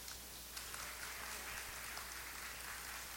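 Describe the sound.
An audience gives a warm round of applause to welcome a woman speaker, a dense, steady patter of many hands clapping that stays faint and even throughout.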